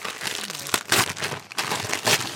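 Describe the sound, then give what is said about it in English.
Wrapping paper crinkles and rustles as presents are unwrapped, a continuous dry crackling with a few louder crunchy bursts. “So everyone's got a gift. Unwrap away, and then we'll find out what you've all got.”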